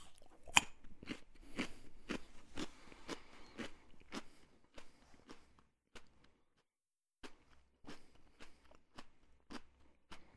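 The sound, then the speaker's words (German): Soft, crisp crunching as someone bites and chews a raw carrot to neutralise the palate during a taste test. Many sharp crunches come in a steady chewing rhythm, pause briefly, then resume. “Um das Ganze fair zu halten, würde ich jetzt meinen Mund neutralisieren. Dafür habe ich eine Möhre.”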